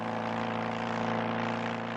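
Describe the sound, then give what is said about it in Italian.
A motorcycle engine carrying a passenger on a countryside outing drones as a loud, continuous hum. Its pitch stays low and steady, with no breaks. “Ed è lui in questo momento che trasporta una Sofia Loren apparentemente spensierata in moto”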